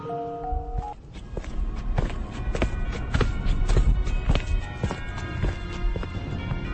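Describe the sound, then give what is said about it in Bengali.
Footsteps of many people approach at night, a dense, continuous patter of overlapping steps that swells slightly, opening with a brief tonal sound. “সহসা দূরে কেন অসংখ্য পদশব্দ?”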